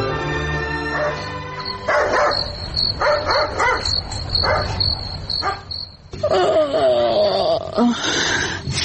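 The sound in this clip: Dog barking in a series of sharp barks in several bursts, over a steady high chirring of insects.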